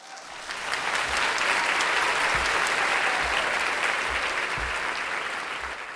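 Audience applause at a live true-crime convention, welcoming a guest onto the stage: dense, even clapping that swells in and holds strongly for several seconds before easing slightly at the end.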